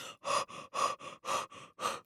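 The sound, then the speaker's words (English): A person imitates a big dog by panting in a quick, even run of about eight breathy huffs, soft and rhythmic with brief gaps between them. “Now, I want you to pant like you're a big dog.”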